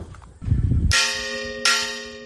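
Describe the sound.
A church bell rung by hand in the bell tower before mass strikes twice. Each loud, bright clang leaves a long ringing hum that carries between the strikes, after some low rumbling handling noise.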